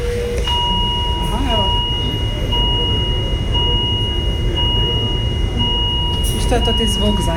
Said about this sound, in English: You get used to the alarms. Every device has its own sound and there are several alarm levels.